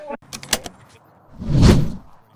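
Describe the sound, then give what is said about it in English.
A car engine starts: a few sharp clicks and knocks are followed by a swelling rumble that peaks and then quickly dies back down. “Jason just started the car, and we're walking back from Novelty House.”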